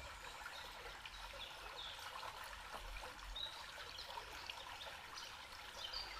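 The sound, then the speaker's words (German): Gently splashing, trickling water flows in a soft, unbroken stream with a light hiss and small irregular splashes throughout, with no talk. “Und es existiert immer mehr und mehr nur dieser Moment und das Plätschern des Wassers.”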